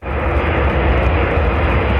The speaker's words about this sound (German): Ein Rollfeld in der lettischen Hauptstadt Riga. Es ist bereits Abend, als eine US-Militärmaschine wieder landet.